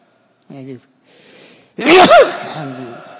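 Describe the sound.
A single loud, sharp sneeze bursts out during a religious lecture, preceded by some quieter speech and followed by talk.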